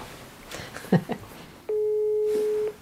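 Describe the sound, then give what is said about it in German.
A telephone call tone sounds while someone phones a person: a single steady, level tone lasting about a second, following a few brief faint sounds. “Ich muss, glaube ich, Linard anrufen und ihn fragen. Mache ich gerade.”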